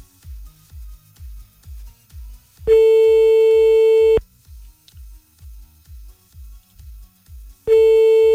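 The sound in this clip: A telephone call ringing out unanswered: long, steady ringback tones, one full and another just starting, separated by a long pause, over a low, regular thumping beat.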